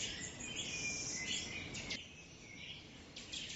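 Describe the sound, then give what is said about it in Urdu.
A small bird sings a continuous run of high, thin chirps and twitters at a moderate level, with no voices. “اپنی آنکھیں بند کیجئے اور اس چھوٹے سے پرندے کی آواز سنیے۔”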